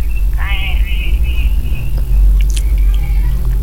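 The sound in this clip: Crunchy pork-skin crackers being chewed, with irregular crackling bites over a low, steady rumble. Voices are heard faintly alongside the chewing.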